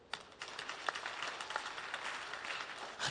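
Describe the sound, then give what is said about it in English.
Faint applause from a church group, a soft patter of many separate claps that grows a little denser toward the end. “So let's clap for her. For have you forgotten how to clap again?”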